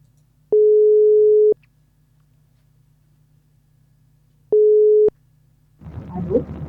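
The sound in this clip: Ringback tone of an outgoing phone call: two long, steady mid-pitched beeps separated by a long silent pause, followed by a voice starting to speak at the end.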